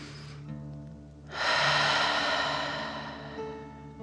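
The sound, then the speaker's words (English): A slow, deep breath in and out taken during a guided bedtime relaxation, heard as one long, soft, airy rush that swells and then fades gradually. “Deep breath in and out.”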